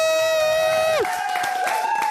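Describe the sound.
A studio audience on a French entertainment show set cheers and applauds for an arriving star. A long sustained shout drops sharply in pitch, then crowd cheering and noise continue.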